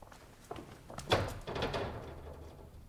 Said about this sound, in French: Là, c'est sans doute une précaution inutile, mais Sigognac m'a bien recommandé de tirer le verrou.